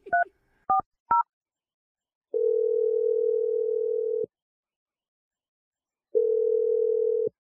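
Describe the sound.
Telephone tones before a call: three short keypad beeps in quick succession, then two long, steady, mid-pitched ringing tones separated by a stretch of silence. No voices.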